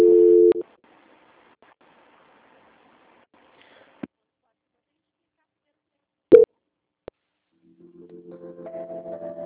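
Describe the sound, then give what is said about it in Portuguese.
Telephone tones during a call transfer: a short steady beep, then near silence broken by a few sharp clicks, and finally a repeating pulsed tone that grows louder toward the end. “A ligação ela vai ficar muda, mas eu tô na linha, tá? Não desliga não, tá? Que eu tô transferindo a ligação.”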